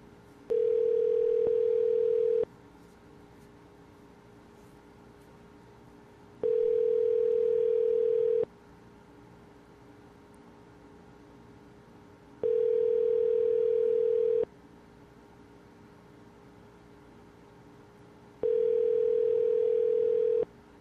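Ringback tone on a phone line calling a taxi company: four long, steady-pitched rings, each about two seconds, separated by even pauses of silence, with no voices.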